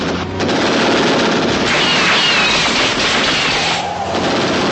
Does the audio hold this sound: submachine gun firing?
yes